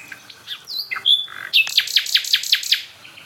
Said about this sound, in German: Also wir stehen jetzt bei der Hotspot-Nachtigall. Und das ist auch die von der ersten Aufnahme.